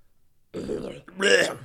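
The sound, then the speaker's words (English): A person uses their voice to imitate a combined burp and cough: two short guttural croaks, the second one louder and more forceful. “it like sounded like he was like burping / coughing at the same time”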